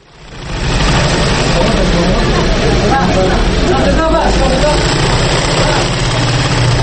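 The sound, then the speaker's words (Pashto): A sewing machine runs steadily in an orphanage workshop in Kabul, operated by a girl student. It gives a continuous mechanical drone with a low, even hum that swells in over the first moment and then holds at a steady, fairly loud level. “این صدای ماشین خیاطی است که در پرورشگاه علاودین در کابل”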